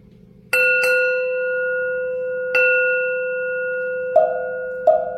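A temple bell is struck five times in a Buddhist meditation setting. Each strike rings out bright and sustained, then slowly decays, over a faint low drone.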